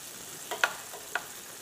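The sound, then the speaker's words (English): Peppers and onions fry in a pan with a steady, even sizzle, broken by a few light scraping clicks as the vegetables are stirred. “The aroma of peppers is a beautiful aroma, right? It's not strong. It's just like a scent that's really very, very nice. The onions are cooking too, which is good too.”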